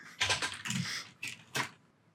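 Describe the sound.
Typing on a computer keyboard, faint clusters of quick plastic key clicks arriving in a few uneven bursts separated by short pauses.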